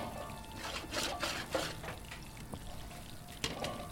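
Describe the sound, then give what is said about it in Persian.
Herbs sizzle as they fry in a pan, a steady crackling hiss with a few sharper pops rising above it. “گل خانم داره سبزی سرخ میکنه”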